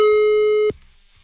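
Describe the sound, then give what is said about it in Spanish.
A telephone line tone sounds while a call is being dialled. A single steady, pure electronic tone holds loud for under a second, then cuts off abruptly into near silence. “Sale, ya está marcando, ¿eh? Para poder llegar a ti.”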